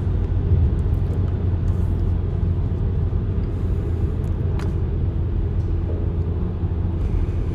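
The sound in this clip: Steady, loud low rumble from inside a car driving on a road at night at about 90 km/h. The road and engine drone runs continuously with no talk.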